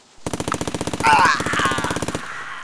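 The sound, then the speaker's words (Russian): Automatic gunfire rips through an autumn forest in one short burst of about 25 shots. The rapid, evenly spaced cracks hammer along at a steady rhythm for about two seconds, loud and alone, then stop abruptly, with echo trailing after. “Короткая очередь из 25 выстрелов эхом разнеслась по осеннему лесу.”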